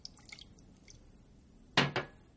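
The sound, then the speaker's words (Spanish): A chemist pours clear liquid into a test tube: two quick, splashy drips close together near the end, after a faint, quiet stretch. “Echa un líquido transparente en una probeta.”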